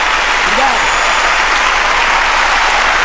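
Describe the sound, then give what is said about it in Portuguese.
Steady applause from a São Paulo crowd, dense and unbroken from start to finish, with no talk over it. “Palmas, São Paulo!”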